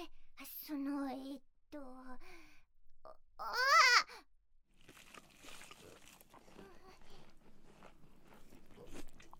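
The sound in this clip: A fried shrimp picked up from the floor is bitten and chewed with a soft, crackly crunch. Brief vocal grunts and murmurs come first, then a faint, uneven run of crisp chewing noises.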